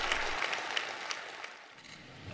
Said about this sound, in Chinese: 梁家河村党支部会议室同样回响着热烈的掌声。